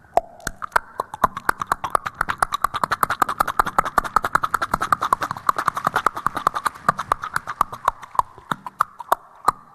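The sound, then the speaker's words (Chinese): A storyteller imitates a horse's hooves clattering on a hard road: many sharp, rhythmic clicks in a quick, steady trotting pattern that stays loud and even from start to finish. “马蹄踏的硬路上，声震耳鼓，耳轮中就听得。”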